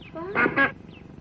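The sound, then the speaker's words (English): A female mallard duck with clipped wings quacks twice in harsh, raspy bursts, fairly loud, after a softer rising call. “I borrowed a female mallard from Jim Teal.”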